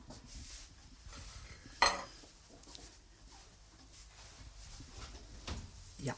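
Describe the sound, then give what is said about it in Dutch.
A metal baking tray taken out of the oven with oven gloves and set on the stovetop gives one sharp metallic clank near the start. Low clatter follows, then a softer knock at the end. “De oven open, de handschoenen aan. En nu kom ik met de bakplaat. Ga ik hier eventjes opzetten op het fornuis.”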